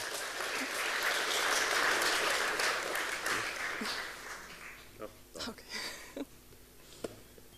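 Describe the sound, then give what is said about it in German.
An audience applauds a speaker taking the stage at a conference. Dense clapping swells for about four seconds, then thins out as a voice begins talking over the last scattered claps. “Einen großen Applaus bitte für Thomas.”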